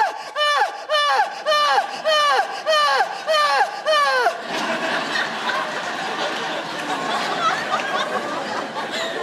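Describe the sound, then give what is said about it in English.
A voice imitates very loud, melodramatic crying, a quick run of about seven falling, wailing sobs. Audience laughter and chatter follow them. “We also all have the same way of crying. This like very loud, melodramatic way of crying that I like to call Greek tragedy crying. And it sounds kind of like this.”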